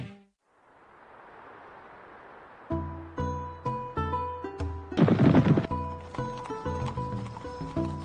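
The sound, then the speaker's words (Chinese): Horse hooves clip-clop along a road to a military camp on an autumn day, with steady rhythmic hoofbeats under instrumental music that follow a soft whooshing stretch at the start. “秋风习习，通往军营的官道上响起一阵马蹄声”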